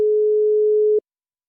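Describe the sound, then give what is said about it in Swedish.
After a number is dialled, a telephone ringing tone sounds as one steady, pure, mid-pitched tone lasting about a second, then stops. “Jag slår in numret.”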